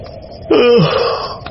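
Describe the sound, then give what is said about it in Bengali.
A big yawn, voiced as one drawn-out moaning breath that starts abruptly, holds a wavering tone, then slides down in pitch before trailing off, with a faint soft sound after it. “বড় একটা high তুলল, চোখ কোচলে বলল,”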